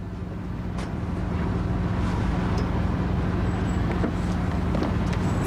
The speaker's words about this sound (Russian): На дороге останавливается автомобиль.